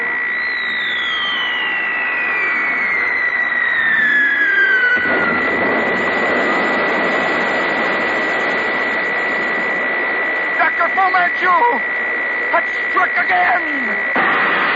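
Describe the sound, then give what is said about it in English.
A tiny aircraft flying high overhead: a droning, whining engine tone glides steadily downward in pitch over a constant high tone and dense background noise, with a few quick clicks near the end. “when suddenly, high overhead, a tiny aircraft appeared.”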